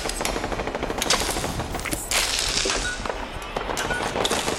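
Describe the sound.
Rapid gunfire during video game combat against raiders and a super mutant, with dense, crackling bursts of automatic shots running almost without pause, loud and bright throughout, with brief dips between volleys.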